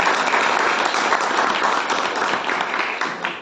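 Audience applause at a poetry book launch greets a young poet. Many hands clap in a dense, even roar that holds strong and eases slightly toward the end.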